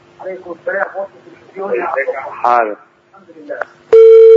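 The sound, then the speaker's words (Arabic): A loud, steady telephone tone sounds after a caller's line drops during a religious call-in show. It cuts in abruptly near the end and holds, following a stretch of people talking. “انت ما وطيتش التلفزيون، انت قطعت الاتصال.”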